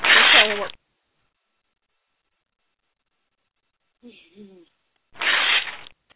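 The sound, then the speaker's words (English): A large paper envelope is torn open in two broad, rasping bursts, one at the start and one near the end, with a brief murmur of voice and silence between them. “It's an incessantly big envelope, so it takes a few tears to get it all the way open.”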